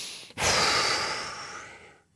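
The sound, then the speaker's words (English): One long, full exhale in a breathing exercise, pushing all the air out on the last breath of a set. A brief catch is followed by a strong, breathy rush that slowly weakens and fades to silence. “Now on the last breath of that set, you blow the air all the way out,”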